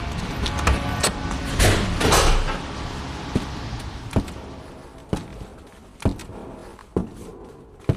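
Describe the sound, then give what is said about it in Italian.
A church's main door is opened and passed through: a broad rumbling, scraping swell early on, then a few sharp, spaced knocks or steps that stand out clearly against a low, steady background. “Ecco, sono al portone. Tempo di varcare la soglia e lasciare dietro di me il rumore, la fretta, il trambusto della città.”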